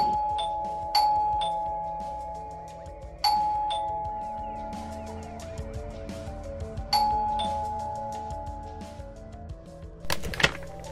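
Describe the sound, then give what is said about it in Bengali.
A flat's doorbell is rung several times, about three bright chimes at uneven intervals, each striking sharply and ringing out slowly. A short, noisy rattle comes near the end. “বেশ কয়েকবার ফ্ল্যাটের bell বাজাতে হলো নিতিনকে”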